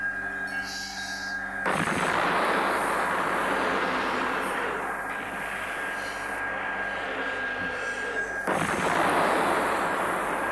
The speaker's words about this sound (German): Eine Explosion.